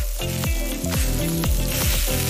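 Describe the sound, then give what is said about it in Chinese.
Pig trotters sizzle as fat drips on a grill at a busy night food stall, giving a steady, crackling hiss that runs unbroken throughout. “烤架上滋滋冒油的猪蹄”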